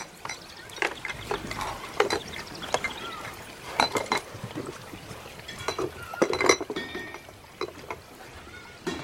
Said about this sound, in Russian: Тележка въезжает по ступенькам на мостик. Из нее выпадают баночки и разбиваются о землю.